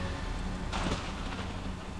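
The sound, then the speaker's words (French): Steady rain falling, heard as a soft, continuous hiss at low volume with a brief fuller swell partway through, over a faint low rumble. “Seul, au bout du rouleau, il marche sous la pluie.”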